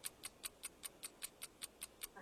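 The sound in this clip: Quiz show countdown clock ticking: steady, rapid, crisp ticks, about five per second, with no other sounds.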